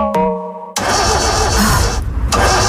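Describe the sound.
A car engine starts cleanly and catches at once, settling into a steady, loud running roar after a short tonal chime at the start.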